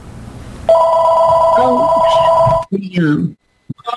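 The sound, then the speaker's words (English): A telephone rings in the background during an online group call: a steady, bright electronic ring holds for about two seconds, then cuts off as a person starts talking. “sorry for the phone in the background”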